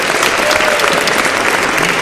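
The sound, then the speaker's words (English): Audience applause fills the whole stretch, a dense, loud and steady wash of many hands clapping with no break or lull. “So give these guys another round of applause for Hash Lug Radio.”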